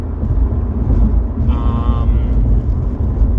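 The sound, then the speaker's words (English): Road noise from a car driving on a highway: a loud, steady low rumble and hiss throughout, with a brief higher tonal whine midway. “I'm sorry for the noise. I'm driving to work, and it's, you know, a highway.”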